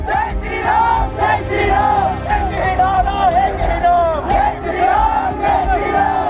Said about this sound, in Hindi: Supreme court परिसर में ही जय श्री राम के नारे लगने लगे।